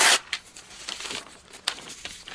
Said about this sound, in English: I don't want you coming here because I'm not even giving you the pieces. Going to rip all these up.